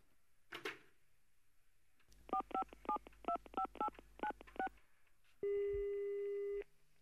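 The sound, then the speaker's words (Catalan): Telephone keypad tones dial an outgoing call, a rapid, evenly paced series of short beeps. A faint click comes before them, and a single steady tone follows the dialing. “Ara sí, a trucar al bisbe.”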